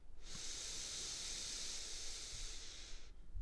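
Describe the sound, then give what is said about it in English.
One long breath out through the mouth during a guided breathing exercise makes a steady, airy hiss lasting about three seconds, with no other sound around it. “Exhale through our mouth. We're almost through here. An inhale through our nose.”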